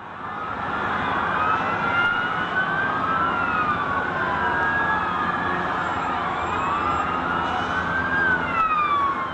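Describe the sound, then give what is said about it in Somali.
Sirens of fire engines and police vehicles responding at the World Trade Center after the attack: several overlapping wails sweep up and down in pitch without a break, steady and prominent over a low traffic rumble. “World Trade Center waxaana gaadiidka gurmadka degdega ah dabdamiska iyo ciidamada booliisku ay bilaabeen in ay u gurmadaan khasaaraha dhacay”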